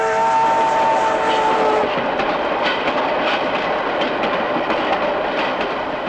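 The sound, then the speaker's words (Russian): A train passing by, heard as a loud, continuous rumble and rattle with clickety-clack rhythm throughout, a faint tonal hum at the start fading after the first couple of seconds. “Перед ней проезжает поезд.”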